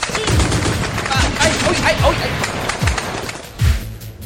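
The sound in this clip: A shotgun firing in a comedy sketch: five low, thumping blasts spaced fairly evenly, sounding over a steady noisy background.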